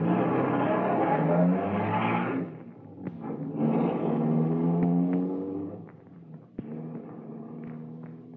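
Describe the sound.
A car pulls away with its engine accelerating, revving in loud swelling surges with rising tones, broken by a few brief sharp clicks.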